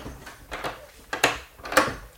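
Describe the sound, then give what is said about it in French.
In a radio drama, a door is shut and double-locked: a few sharp wooden and metallic clacks stand out over a faint rustling background. “Attendez, nous allons mettre le panneau et fermer la porte à double tour.”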